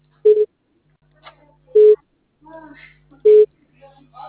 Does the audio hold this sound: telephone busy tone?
yes